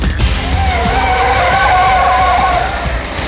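A car accelerates hard toward a traffic-light crossing, with a loud, continuous engine roar and a wavering tonal whine that stay strong throughout.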